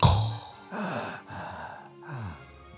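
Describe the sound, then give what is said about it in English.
A man's voice imitates Darth Vader's machine-assisted breathing with rasping, hollow breaths. A sharp opening gasp is followed by a few slow, even inhale-exhale swells. “That's the sound of a man dying and with machine assisted, almost not dying, you know. It's a very strange thing, Darth Vader.”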